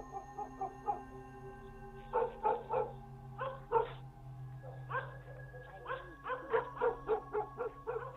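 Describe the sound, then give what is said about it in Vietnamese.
Two dogs bark loudly at night in repeated bursts of sharp barks and yips over a low, steady hum. “Bỗng nhìn hai con chó, nó lại lên cơn, sủa lên inh ỏi.”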